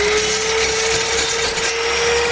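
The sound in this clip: An electric woodworking machine cuts wood in a carpentry shop in Qala-i-Naw, Badghis, making a loud, continuous whining drone with a steady tone that does not let up.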